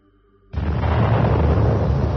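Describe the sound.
Motorised artillery cannon fire near fir forest: after a quiet moment, a single sudden loud blast breaks into a sustained, broad, roaring rumble that holds steady to the end.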